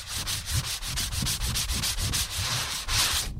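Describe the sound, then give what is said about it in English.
A parchment skin surface is sanded after shaving: many quick, even, raspy strokes in a steady back-and-forth rhythm, with no talk. “to sand the skin surface after the shaving process because the surface of the skin now is pretty rough. I want to try to smooth it down as much as possible”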